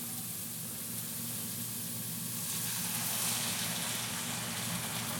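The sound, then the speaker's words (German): A steak sizzles in a hot pan with a steady, dense hissing crackle that swells slightly partway through and continues without pause or talk. “Oh ja, wenn man den Deckel aufmacht, hört man schön. Hauen wir doch mal das schöne Steak rein.”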